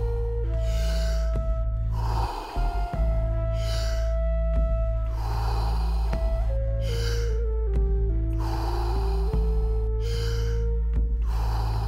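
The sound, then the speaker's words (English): Continuous deep breathing with no pause between inhaling and exhaling: several forceful, evenly spaced breath rushes over a sustained low musical drone with held tones that shift slowly. “Fully in and letting go. Just keep on going. No pause between inhalation and exhalation.”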